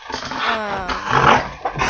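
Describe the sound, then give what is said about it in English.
A dog growls while being play-wrestled, a continuous, rough, low rumbling growl that swells louder toward the middle, dips briefly, then picks up again. “I'm sorry, I've been wrestling a dog.”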